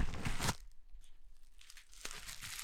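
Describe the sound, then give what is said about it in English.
Packaging torn and crinkled as a package is opened during a live unboxing, with soft ripping and crumpling in two bursts, one at the start and one near the end, separated by quieter handling. “We're going to open it live. This is a live unboxing.”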